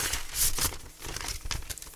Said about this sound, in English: Right, I've got it. And I'm placing it inside the envelope.